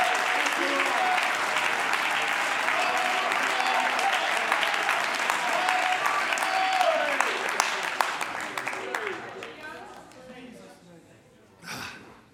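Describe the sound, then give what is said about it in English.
An audience claps along in a worship service. The clapping is loud, dense and sustained, with voices over it. It thins out after about nine seconds, and a brief louder burst comes near the end. “Oh, would you clap your hands and bless the Lord.”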